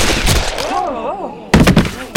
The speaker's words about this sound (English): Shot him two times, the shots so close together they sounded as one, leaving two holes in the center of the kid's chest.